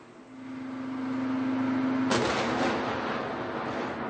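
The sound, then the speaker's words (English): A tank shell explosion shaking the Palestine Hotel: one violent blast about halfway through cuts off a steady low hum and leaves a rough rumbling decay. “Une violente déflagration ébranle l'hôtel.”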